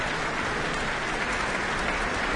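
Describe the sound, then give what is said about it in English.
Concert audience in Auckland Town Hall applauding an orchestra, a dense, continuous patter of many hands, steady and even in loudness throughout. “And the musicians stand and take in the applause here from the Auckland Town Hall audience, and then retake their seats as their conductor bounds from the stage.”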